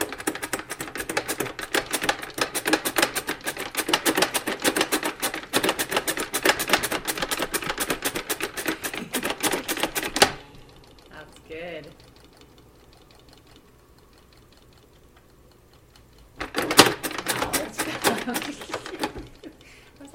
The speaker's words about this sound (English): And he spun it again.